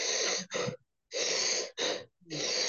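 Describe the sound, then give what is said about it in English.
A person demonstrates gas-and-air breathing, loud breathy short exhales alternating with long, massive inhales. There are five breaths in all, with brief silences between them. No one speaks. “So it's short exhale, massive inhale”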